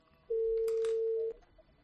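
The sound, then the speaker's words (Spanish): A single steady telephone tone as a live call to the Philippines is placed, holding one even mid-pitched note for about a second before stopping abruptly, with no voices. “Vamos a llamar en directo, vamos a llamar a Filipinas.”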